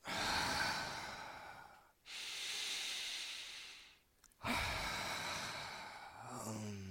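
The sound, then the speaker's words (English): Slow breathing in and out: three long, soft, airy breaths, each separated by a brief pause, heard alone and fairly faint. “Slow breaths. In... and out.”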